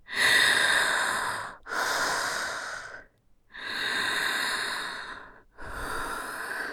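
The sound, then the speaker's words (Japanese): Deep, heavy breathing through a covered nose and mouth gives four long, noisy, hissing breaths, each swelling and fading, separated by short silent pauses. “鼻と口塞がれながら深呼吸しろ。”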